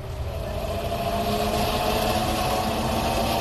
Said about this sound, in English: Bring us in closer. Aye, aye, sir. Moving us in on sublight drive.